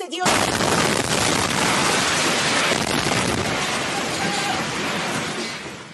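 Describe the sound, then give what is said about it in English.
An airstrike hits a television station during a live broadcast. A sudden blast breaks into a loud, dense, roaring and crackling rush of noise that holds for several seconds, then eases off at the end. “And here's the sound of one of Israel's strikes. An Iranian television station was struck while the anchor was on air.”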